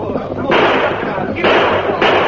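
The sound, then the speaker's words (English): Gunshots fired by a fleeing horseback rider in a radio western drama: three loud, harsh bursts spaced roughly evenly over a continuous noisy bed, with voices underneath. “Rein up or we'll blast you full of lead. He's shooting.”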